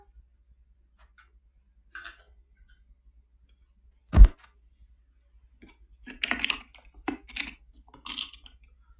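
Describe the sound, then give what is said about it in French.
A jar being opened: one sharp, clear click or pop of the lid stands out amid quiet, followed by a few faint clinks and rattling handling noises. “Je vais ouvrir mon pot de bim. Voilà.”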